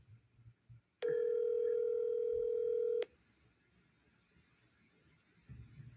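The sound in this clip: A telephone call ringing unanswered: a single steady, pitched ring tone lasting about two seconds, then faint background noise.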